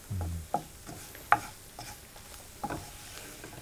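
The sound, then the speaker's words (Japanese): Flour is stirred and fried in oil in a frying pan, giving a quiet, low sizzle. A few soft scraping knocks from the stirring tool rise above it. “であの小麦粉の白っぽいところがなくなるようになくなるようにこうほぐしながら炒める。”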